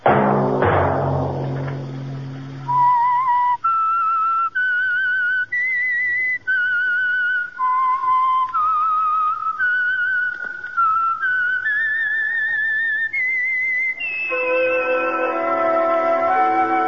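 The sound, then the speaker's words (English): A whistled theme tune, a lone clear melody of sustained high notes stepping up and down, each held and separated by brief breaks, rising toward the end before a fuller musical chord. “That whistle be your signal for the Signal Oil program, The Whistler, each Sunday night at this same time.”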